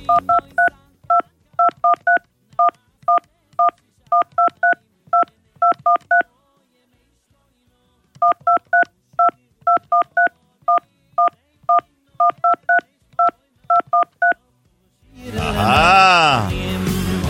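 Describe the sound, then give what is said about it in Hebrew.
Telephone keypad tones play a Hasidic song: many short, pitched beeps in rhythmic melodic phrases, in two long runs separated by a pause, followed by a brief loud burst of noisy sound at the end. “איך אתם מנגנים לי שיר חסידי דרך מקשי הטלפון שלכם.”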